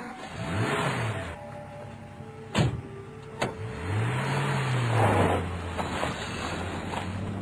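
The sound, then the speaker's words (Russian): A car driving fast, its engine drone swelling and dipping in pitch as it moves, with a couple of brief sharp clicks partway through and a constant airy hiss. “Вскоре он оказался в машине. В тепле и уюте она несла его так быстро, что слышался свист рассекаемого воздуха.”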